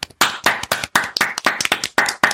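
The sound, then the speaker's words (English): Quick, uneven bursts of hand clapping from an audience giving someone a big clap, with many sharp slaps in short clusters and brief gaps between them. “Do we want to give Oats the big clap? Let's give him the big clap. Oats, you're getting the big clap.”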